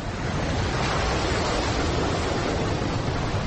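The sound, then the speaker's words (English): Atlantic ocean waters burst over a land bridge in a flood, a dense, steady roar of rushing water that stays loud and unbroken throughout. “Rising tides weakened the land bridge, and then the Atlantic burst its way over the precipice.”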